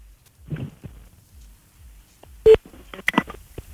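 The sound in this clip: Telephone keypad tones as a number is dialed to call someone back. A few short electronic beeps sound, one louder tone followed by a quick cluster, with faint clicks between.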